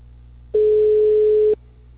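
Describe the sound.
A telephone busy-line tone, with all lines engaged: a single steady, mid-pitched beep lasting about a second, rising abruptly out of a faint low hum and cutting off just as sharply.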